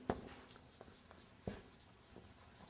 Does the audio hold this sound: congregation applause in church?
no